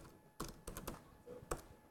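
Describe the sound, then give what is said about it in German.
Faint typing on a computer keyboard while writing in a document in a web browser: a few scattered, soft keystroke clicks at an uneven pace against a quiet hiss. “ich kann ganz einfach direkt im Browser drin schreiben.”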